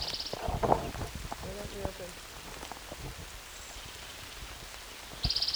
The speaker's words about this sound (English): Raining.